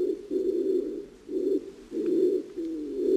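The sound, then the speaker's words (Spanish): Bolle's and laurel pigeons coo in laurel forest on the Canary Islands, giving several low, soft, rounded coos in a slow, uneven rhythm with short pauses between them. “son las palomas turqué y rabiche. Son estas palomas que escuchamos,”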